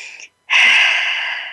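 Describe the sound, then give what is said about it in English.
A deep breath during a guided mindfulness exercise: a brief airy intake, a short pause, then a long, loud, steady rush of breath that continues to the end. “So let's take a breath.”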